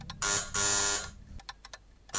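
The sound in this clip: An electric bell in an office rings at five o'clock with harsh buzzing bursts, two long rings followed by a few short blips and then another ring starting.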